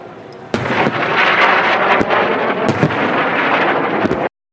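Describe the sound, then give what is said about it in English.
Explosions from rockets being intercepted over Israel: a loud, continuous roar punctuated by a few sharp booms and bursts, which cuts off abruptly near the end. “New video shows rockets being intercepted over Israel as the deadly conflict between the country and Hamas escalates.”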